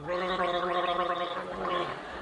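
Someone gargles loudly and continuously for about two seconds, a bubbling, throaty rattle with a voiced tone running through it.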